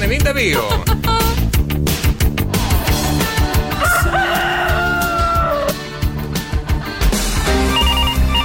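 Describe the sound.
A rooster crow sound effect triggered by pressing a button on a morning radio show, cutting through a dense, busy backdrop of rhythmic sound.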